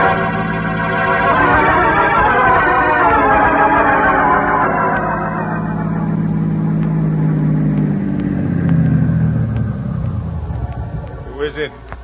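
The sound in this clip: A car drives and pulls up at night on the road toward Mexico City, its loud engine drone falling in pitch as it slows, followed by a few faint clicks at the end.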